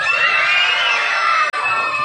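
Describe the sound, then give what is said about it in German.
Schoolchildren at the Odilienschule shout and cheer with joy as a school election result is announced, a dense, high, continuous crowd roar of many young voices that breaks off for an instant near the end before surging again. “Wir haben so richtig geschrien, weil wir haben uns so gefreut.”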